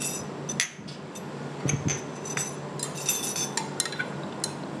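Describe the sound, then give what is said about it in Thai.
Stirring the first part of a pet breath freshener spray mixture: faint metallic clinks and scrapes of a utensil against a container, many small taps over a soft background hiss. “เราก็จะใส่ลงไปเลยนะเดี๋ยวก็คนก่อนนะคะคนที่ส่วนที่หนึ่งเข้าอันก่อน”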